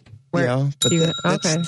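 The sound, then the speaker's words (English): A bell used as a New Year noisemaker is struck once and rings with a steady, high, sustained tone through the second half, while people talk over it. “Well, your bell is a noisemaker.”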